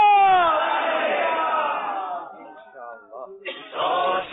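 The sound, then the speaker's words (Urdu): A crowd at a competition shouts a religious slogan in unison at the start of a final round. A long, loud cry falls in pitch and fades, dips briefly, then a second loud burst of voices swells near the end. “نعرہ لگائے فیضان اعلی”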